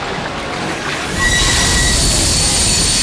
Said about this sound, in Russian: Паровоз замедляет ход.